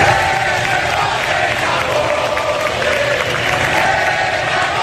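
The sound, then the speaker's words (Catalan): A crowd at the 12 October military parade in Madrid booing and jeering Pedro Sánchez: a loud, dense, unbroken roar of many shouting voices that holds steady throughout. “Com és habitual, Pedro Sánchez va emportar-se l'escridassada del públic que va anar a aquesta desfilada militar.”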